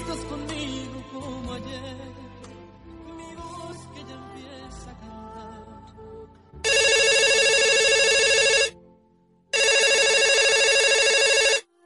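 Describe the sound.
Telephone ringing for an incoming call: two long, loud, steady electronic rings, each about two seconds with a brief gap between, after several seconds of soft music.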